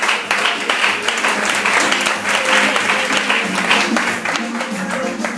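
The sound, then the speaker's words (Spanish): An audience at a business presentation claps in a thick, continuous wash of hand claps that pulses slightly in level and lasts about five seconds. “así que por favor, diría que le hiciéramos un fuerte aplauso.”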